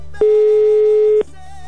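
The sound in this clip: An outgoing telephone call to a brother rings unanswered before going to voicemail: a single loud, steady mid-pitched ringback tone lasting about one second over faint background sound.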